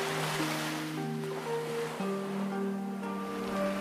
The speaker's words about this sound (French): Ta respiration par le nez et le son de la vague